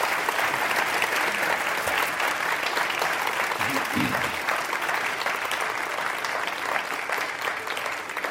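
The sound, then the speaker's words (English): Enthusiastic studio audience applause at the close of a radio interview, a dense, steady wash of clapping that holds at an even level throughout. “Our thanks to our members and donors here. The enthusiastic applause, greatly appreciated.”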